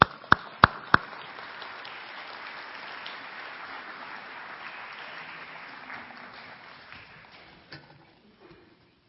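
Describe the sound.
Audience applause welcoming two guests: a few sharp, separate claps at the start swell into sustained, even clapping that gradually thins out and fades toward the end.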